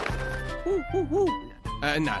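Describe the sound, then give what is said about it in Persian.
A human voice imitates an owl, speaking owl language with three rising-and-falling hoots amid ordinary talk. “بذار با این دوستمون با زبان جغدی حرف بزنم.”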